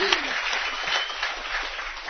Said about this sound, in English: Let's give her a nice round of applause for academics.